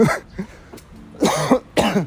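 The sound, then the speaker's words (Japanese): Coughing after choking comes as a short series of harsh, throaty bursts alone with no talk, with smaller coughs first and two louder, fuller coughs near the end. “ごめんなさいむせためっちゃむせた”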